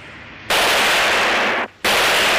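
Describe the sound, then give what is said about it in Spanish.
Gunfire from a gendarme shooting from behind a car, heard as two loud, sustained bursts of rapid fire separated by a brief pause. “El gendarme se esconde tras un coche y dispara a Marcel.”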